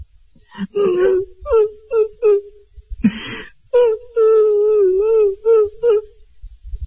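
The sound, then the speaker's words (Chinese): A voice imitates a woman crying in a room, with drawn-out wailing and whimpering phrases in a rising and falling pitch and a sharp, breathy catch midway. “因为他们听见屋子里边有女人的哭声。”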